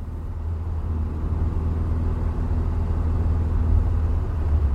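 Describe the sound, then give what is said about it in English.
A car drives up into the hills outside Netherland, its engine a steady low rumble with no voices, continuous and even throughout. “We began the drive to Cornell's house. It was hidden away higher in the hills outside of Netherland. The drive was peaceful”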